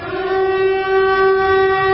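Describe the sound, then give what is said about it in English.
An air raid siren sounds a steady, sustained wailing tone with rich harmonics, holding one even pitch and fairly constant loudness throughout, with no voices. “let's bring the air raid sirens back in for the ambiance it gives us.”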